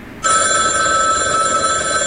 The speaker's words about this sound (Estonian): Vabandust , mul poeg helistab .